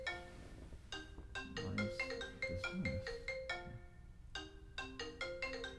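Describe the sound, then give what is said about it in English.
Cell phone ringtone playing through a computer: faint, bright electronic notes in quick melodic phrases, a short pause, then the pattern starts again. “just found out that my cell phone rings through my computer.”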